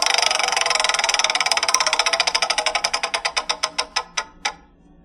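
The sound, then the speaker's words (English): A spun game show wheel clatters with many rapid clicks as its pointer strikes the pegs. The ticking starts fast and even, then steadily slows and spaces out until a last few separate clicks and a stop. “Let's spin the wheel.”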